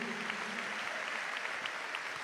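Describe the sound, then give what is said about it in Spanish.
Faint, steady clapping from a church audience applauding during a worship service after baptisms. Soft, even patter with small sharp peaks throughout. “Denle un aplauso al rey.”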